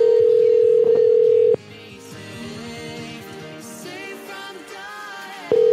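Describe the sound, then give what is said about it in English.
A landline telephone gives a loud, steady dial tone that cuts off after about a second and a half. A jumble of other sounds follows, then the tone returns briefly at the end. “I'm ringing the landline first.”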